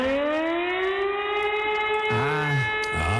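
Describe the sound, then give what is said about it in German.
A storm-flood warning siren in Hamburg sounds during a test with a loud, steady, sustained tone rich in harmonics. It holds at an even pitch throughout, and a voice is briefly heard over it near the end. “Hamburgs Sturmflut-Sirenen werden getestet. Muss mal gucken, ob die noch funktionieren.”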